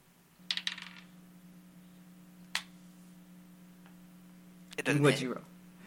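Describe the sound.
Dice rolled on a table for an attack in a tabletop fantasy role-playing game: a quick rattle of clicks, a lone tick later, then a louder clatter near the end, all over a faint steady hum.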